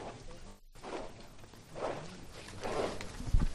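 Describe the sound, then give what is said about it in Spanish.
Bearers' feet shuffle along a street in Seville beneath a Holy Week procession float, a broad scraping swish that swells in a steady rhythm about once a second, with no voices. “Se escucha el rachear bajando por Reyes Católicos el Señor de Sevilla.”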